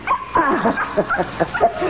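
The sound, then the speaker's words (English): A small dog barks and whimpers in a rapid run of short, high yaps mixed with whiny, wavering cries. “I left my little dog downstairs. I told him, stay. But he never listens.”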